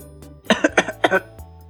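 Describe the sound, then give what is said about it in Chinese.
A gentleman gives a dry cough in a spoken story, a few quick, harsh throat-clearing bursts packed closely together, loud and alone. “绅士干咳了一声。”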